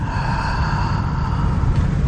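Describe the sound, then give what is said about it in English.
One person draws a long, deep breath in during a guided relaxation exercise, a steady breathy hiss that lasts about two seconds with no talk over it. “So I want you to breathe in. And breathe out. Breathe in.”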